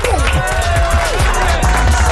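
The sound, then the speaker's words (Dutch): Loud cheering and clapping from a group in a studio greeting a DJ, a dense, continuous clatter with several voices calling out over it. “Mag ik voor hem toch ook wel een applaus vragen? Een zwaar applaus, want we hebben nog een DJ in de house.”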